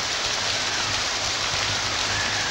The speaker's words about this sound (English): In the torrential rain and confusion